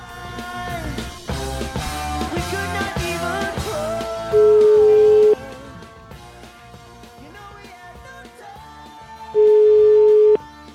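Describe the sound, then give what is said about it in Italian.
Telephone ringback tone while placing a call, two steady beeps of about one second each, spaced roughly five seconds apart, sounding over background music. “Ho qui il numero di telefono, facciamo una telefonatina, che dici?”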